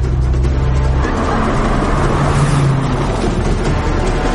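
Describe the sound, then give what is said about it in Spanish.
A car drives along a street, its engine and tyre noise forming a steady, unbroken low hum with a constant rumble and little change in level throughout. “Transitan por una calle en el coche de John.”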